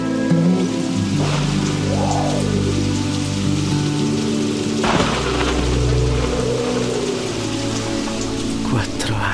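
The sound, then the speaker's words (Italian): Hail and rain against a window, with wind: a dense, continuous crackling patter that stays loud throughout, with a few brief louder surges. “Alcune manciate di grandine crepitarono contro la finestra, seguite dalla pioggia e da un vento infido che fece sbattere la porta della stanza accanto”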